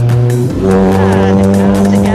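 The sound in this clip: Racing car engines at a rally-style motorsport event, a loud, continuous roaring drone of engine tones that shift in pitch as the cars drive past.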